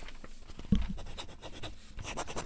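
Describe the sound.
A fountain pen writes on paper, giving soft, faint, irregular scratching strokes throughout.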